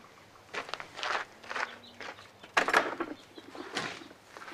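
Footsteps on a ranch: a series of soft, irregular steps, fairly faint, over a low steady hum.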